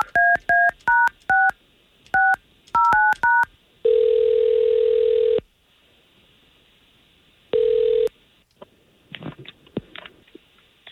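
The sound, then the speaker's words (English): Telephone keypad tones as a call is placed: a quick run of many short, bright dual-pitched beeps, then two long steady ringing tones separated by silence, with a few faint scattered noises at the end. “If we can, let's see if we can't get Tara on the line and get you two talking.”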